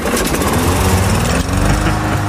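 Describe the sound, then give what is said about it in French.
A lawn mower engine, restarted after sitting through the winter, runs loud and continuously with a rough, buzzing drone and a brief dip in the steady roar. “Ah, c'est vrai que tout le monde a redémarré sa tondeuse. Après l'hiver, elle n'est pas toujours au mieux de sa forme.”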